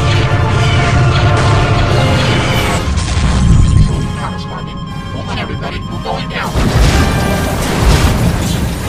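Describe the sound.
Starfighters opening fire in space combat, with a dense, loud barrage of weapon blasts and booming explosions over a continuous roaring, rumbling bed of sound.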